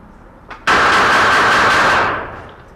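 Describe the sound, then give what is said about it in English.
A sidearm pistol is fired rapidly from the hip on a firing range, the shots blurring into one loud, harsh roar lasting over a second before it tails off. “One of our special agents will fire for you today. He'll fire a sidearm and a shoulder weapon. First, the sidearm will be fired from the hip.”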